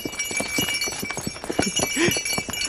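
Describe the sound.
Horse hooves clip-clop as riders set off, with many quick, evenly spaced hoof beats forming a brisk, steady trotting rhythm.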